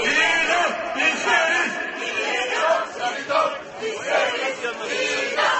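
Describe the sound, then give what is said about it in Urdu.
Protesters in Istanbul chant slogans demanding the death penalty for soldiers brought to court over a July coup attempt against Erdoğan's government: a loud massed chorus of voices surging in repeated rhythmic phrases. “مظاہرین نعرے لگا رہے ہیں کہ ہم موت کی سزا چاہتے ہیں۔”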